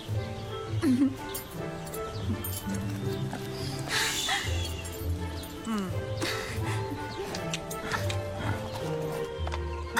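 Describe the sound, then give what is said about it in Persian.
A sturdy horse's hooves clip-clop in an uneven rhythm, moderately loud, mixed with rustling and other background sound. “مراقب این اسب تنومند باش، چون یکی هست که نگرانش میشه.”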